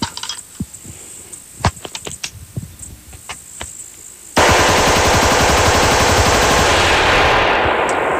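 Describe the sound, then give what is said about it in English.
A semi-automatic rifle fires rapidly without a bump fire stock. A few scattered cracks come first, then a loud, unbroken stream of many fast shots runs to the end. “so as you can see, semi-auto rifles really don't need a bump fire stock to shoot fast.”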